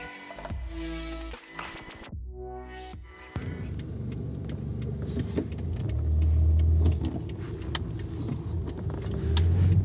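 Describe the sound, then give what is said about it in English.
A car being driven to a yoga class in LA gives off a steady low engine rumble and road noise, with scattered faint clicks. Nobody speaks. “So I'm driving to yoga right now, which is much needed.”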